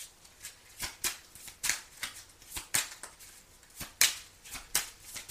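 Cards shuffled from a deck before more are drawn: a run of many crisp, papery riffling bursts at an uneven rhythm, fairly quiet, with no voices.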